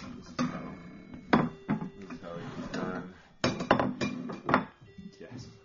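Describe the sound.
A knife cuts a thick ham steak, with sharp, irregular clinks and scrapes of cutlery against a plate while people talk.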